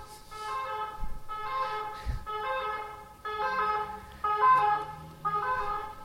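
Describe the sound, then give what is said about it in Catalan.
An ambulance siren sounds in repeated cycles of bright, harmonic tones, each lasting about a second. Moderately loud and steady in pattern, with low rumbling in the background. “Una ambulància és això, però, no? No són els bombers, eh?”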